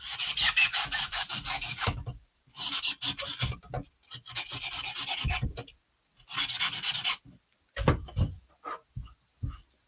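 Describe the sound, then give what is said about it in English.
Styrofoam is shaved down on a wire armature for a dog sculpture, giving scratchy, rasping strokes in several bursts separated by short pauses, the last section breaking into shorter, choppier scrapes. “Yeah, I think I'm going to shave a bit of that. It's a little bit too. Okay, styrofoam noise.”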